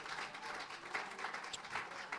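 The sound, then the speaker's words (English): A church audience applauds with steady, fairly faint hand clapping that continues throughout. “Let's give the Lord a big hand clap of praise. Can we do that?”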